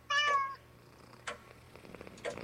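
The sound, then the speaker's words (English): A pet cat lets out one clear, high meow at the start, followed by near quiet with only a few faint small sounds. “Oh, and here is my kitty.”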